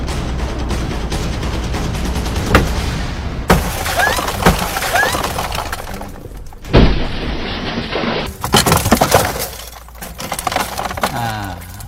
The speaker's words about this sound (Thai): จะเห็นว่าการแตกลักษณะเนี่ยเป็นเม็ดเล็กนะฮะ เพราะว่าความเปราะกระจกลักษณะเนี้ยจะไม่ได้ใช้อยู่ที่กระจกด้านหน้า